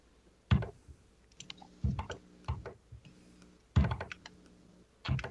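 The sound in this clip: Typing on a computer keyboard: quiet, irregular clusters of sharp key clicks separated by brief pauses, with no voices present.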